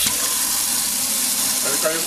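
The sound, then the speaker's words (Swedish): Water fills a bucket in a steady, bright, hissing rush that continues evenly throughout. “men vi ska fylla det här ämbaret också.”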